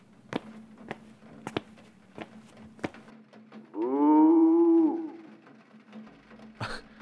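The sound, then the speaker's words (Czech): A person imitates a cow mooing in a garden beneath a window. The voice gives one drawn-out, low moaning moo lasting about a second, with scattered sharp clicks before and after. “Bučet mi pod oknem. To nebude kráva, to zní jako člověk imitující krávu.”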